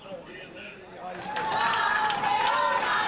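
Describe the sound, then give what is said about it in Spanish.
Crowd cheering and clapping to welcome Spain's world champion rhythmic gymnastics team as they land. It starts subdued, then swells about a third of the way in into a sustained, loud wall of cheers. “Y así, recibidas entre vítores, aterrizaban las campeonas del mundo de gimnasia rítmica.”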